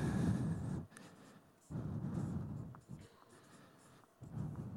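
A pen scratches as it draws a circle, making a few scratchy, rasping strokes separated by short pauses. The strokes are moderately loud, with no talk over them.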